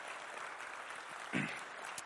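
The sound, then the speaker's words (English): A church audience claps hands together during a morning service, a dense, even patter of many hands that continues steadily throughout, soft and fairly quiet overall. “Let's give the Lord a hand clap this morning.”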